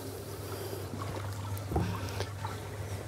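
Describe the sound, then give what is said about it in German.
An animal swimming in a pool: soft splashes and trickling water over a low, steady hum, fairly quiet throughout. “Na komm, hier kannst du noch mal richtig schwimmen.”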